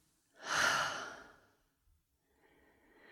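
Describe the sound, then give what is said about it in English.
A deep breath in and out, heard as one long, loud, airy breath that swells and then fades, with a fainter, softer breath beginning toward the end. “Let's take a deep breath in and out.”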